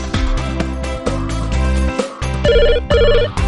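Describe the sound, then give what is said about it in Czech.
A phone ringtone for an incoming call plays loudly alone, a bright electronic melody of bouncy repeating notes with punchy low beats underneath and short breaks between phrases. “Adam je právě na drátě, chce s tebou pokecat, tak proto volá tě. Adam volá, zvedni to Adamovi.”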